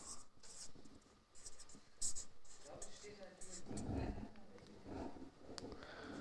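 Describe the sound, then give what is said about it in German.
A pen scratches out writing during a Bible lesson, with repeated short, scratchy strokes in an irregular rhythm and murmured voices underneath. “Ich schreibe es mal auf.”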